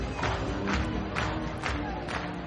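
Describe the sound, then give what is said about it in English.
A baseball crowd at Atrium Health Ballpark on a Thursday night, with the Ballers and Fred Nats tied. The fairly faint, steady crowd noise pulses with regular, evenly spaced bursts. “Crowd is getting ruckus here on a beautiful night for baseball.”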